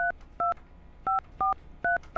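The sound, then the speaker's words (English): Touch-tone keypad dialing a childhood phone number: six short dual-tone beeps at uneven intervals, clear and alone. “I'm going to type in my childhood phone number.”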